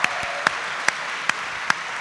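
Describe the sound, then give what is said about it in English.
An audience applauds at a live holiday comedy show. A steady patter of clapping runs throughout, punctuated by five sharp, evenly spaced louder claps. “Big hand of applause for Ben, everybody.”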